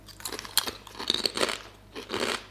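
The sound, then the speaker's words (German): Crisp, hard potato chips crunch between the teeth in a few loud, brittle bursts of chewing, with no talk over them. “Die sind viel knuspriger als bei uns Chips irgendwie, so härter, knuspriger.”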